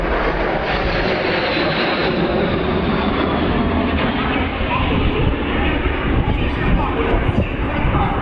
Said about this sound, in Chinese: 两架轰六轰炸机在我们头顶上呼啸而过。